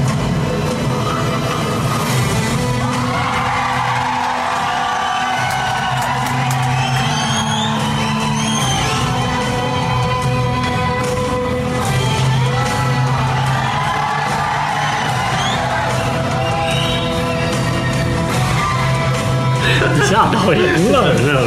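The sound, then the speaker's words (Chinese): Crowd cheering, whooping and shouting from an audience in an Indian cinema, a loud, continuous roar of many voices with yells rising above a dense, steady backdrop. “就比如说男主一出来，你就可以听到那个里面突然发出一些声音， 对， 整个全场就欢呼起来。”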